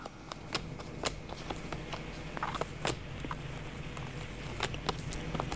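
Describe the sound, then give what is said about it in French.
Playing cards being shuffled and drawn during a card reading: faint, crisp riffling and snapping clicks scattered throughout over a steady low hiss. “je vais encore juste tirer quelques cartes.”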